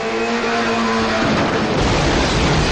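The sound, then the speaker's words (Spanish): A grey car speeds the wrong way down Madrid's Gran Vía in a Spanish film scene from 2000, a loud, sustained engine roar that gives way to a dense, rushing noise. “Un coche gris irrumpe a toda velocidad en la Gran Vía de Madrid y circula en dirección contraria. El resto de vehículos trata de esquivarlo.”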